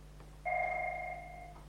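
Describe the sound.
A telephone rings with a single sustained electronic tone lasting about a second. The steady, two-pitched burst sounds over a faint low hum, with no talk.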